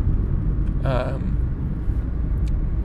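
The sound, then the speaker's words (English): Steady, loud low rumble of a car driving in traffic, a continuous engine and road drone that holds even from start to finish. “I'm driving in traffic and something weird is going on up there.”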